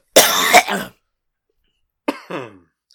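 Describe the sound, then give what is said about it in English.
Coughing: two separate bursts with silence between, the first loud and harsh, the second shorter and more voiced. “it was so bad I had to cough”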